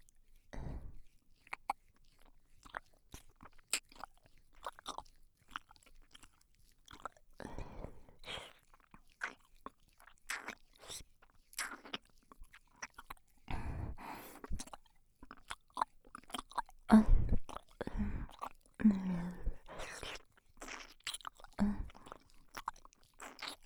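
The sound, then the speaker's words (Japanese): Wet licking and mouth sounds on an ear, starting at the outer rim, with many quiet, sharp smacks and clicks at irregular intervals and no talking. “次は反対側のお耳を舐めさせていただきます。まずは外の縁から。”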